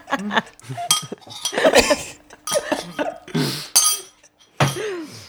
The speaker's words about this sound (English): It's pretty loud. I feel like you're sharing that bowl with all of us. Just making sure I'm getting all the milk at the bottom, you know?